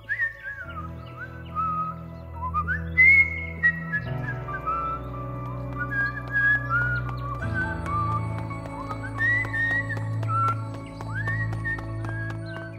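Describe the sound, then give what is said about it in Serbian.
Whistling of a melody by a boy: a clear, bright tune of many gliding, sustained notes carried over a soft, steady musical accompaniment throughout. “da drži ruke u džepovima dok zviždi”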